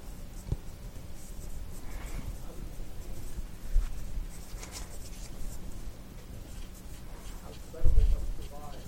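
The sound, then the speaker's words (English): Pen scratching on paper as someone writes down the week's café special, a steady, soft scratchy texture with a few louder strokes, heard under people talking. “Write it down.”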